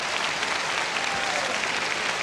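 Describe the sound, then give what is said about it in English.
Concert audience applause for a symphony orchestra: a dense, steady wash of clapping that stays even in loudness throughout, without talk. “Mr. Panufnik insisted on staying behind and applauding as Sir George came to the front and asked the Chicago Symphony Orchestra to stand.”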